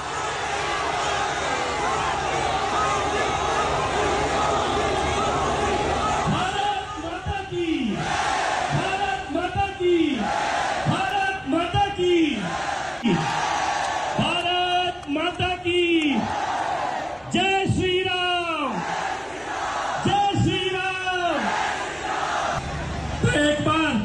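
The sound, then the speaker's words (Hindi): A crowd at a political rally in Delhi chants slogans in loud, rhythmic shouted bursts over a constant roar of voices. The chanting begins after several seconds of general crowd noise and repeats at a regular pace. “मंच से कपिल मिश्रा ने नारे भी लगवाए।”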